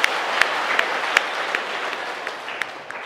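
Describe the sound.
Audience applause at a Buddhist Dharma lecture: a steady wash of many hands clapping, with a few sharper individual claps standing out.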